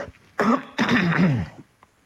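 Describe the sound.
A person clearing their throat: a short rasp, then a longer, gravelly rumbling effort, heard alone without speech.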